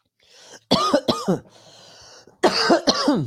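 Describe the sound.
Harsh coughing from someone who had something go down the wrong way: four loud, voiced coughs in two quick pairs separated by a short pause, with no talk.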